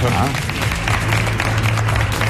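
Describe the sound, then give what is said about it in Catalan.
Audience applause for a contestant during a game segment, a steady dense patter of clapping that lasts briefly, with voices over it. “Un aplaudiment”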